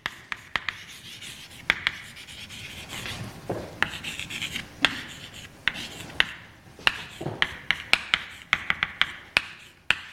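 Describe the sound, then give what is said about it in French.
Writing on a board during a lecture on Killing vectors, heard alone as a steady run of scratchy, rubbing strokes punctuated by many sharp, crisp taps that cluster more densely toward the end. “Je vais peut-être les écrire ici. Donc Killing.”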